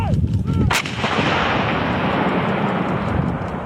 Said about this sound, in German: hört dieses Geräusch sehr oft nur von der anderen Seite. Das sind Schüsse oder Explosionen von irgendwelchen,